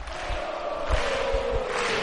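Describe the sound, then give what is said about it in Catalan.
A basketball crowd cheers near the end of a win in a Penya game, a steady, moderately loud roar with soft low thumps pulsing beneath it. “I el públic aquí ja celebrant més de mitja victòria.”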